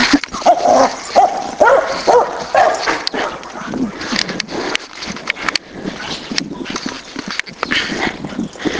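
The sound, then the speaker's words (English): A deaf neighbor's dog growls, wheezes and barks from across the street while scratching at the sidewalk. Harsh, rough vocal bursts come thick and fairly loud throughout, with no clear pauses. “Growl, wheeze, bark of the deaf neighbor's dog. She scratches the sidewalk, trying to get at us from across the street.”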